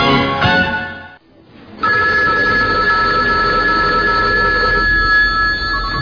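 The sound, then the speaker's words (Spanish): A telephone rings loudly on its own: a bright, sustained electronic ringing tone, briefly broken by a short pause, then resuming and continuing steadily. “Ahora cojo el teléfono. ¿Pero quién será?”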